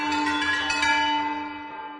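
Bells ringing, with bright metallic tones that sustain and slowly fade over a few seconds, and a few fresh strikes layered over the ongoing ring.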